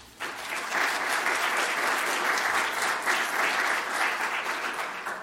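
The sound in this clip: Audience applause welcoming a speaker to a talk on food and farming: dense, steady clapping starts almost at once and holds at an even, loud level to the end.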